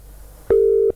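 A single steady telephone tone sounds while a caller waits for the phone to be answered: one loud, even, low-pitched burst lasting under half a second, with no talk over it.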